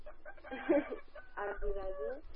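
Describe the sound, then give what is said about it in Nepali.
A rooster crows a drawn-out, harmonic call in the second half, after a few shorter fowl calls, all fairly faint against a low background. “अनि भाले त धेरै छ जस्तो छ नि”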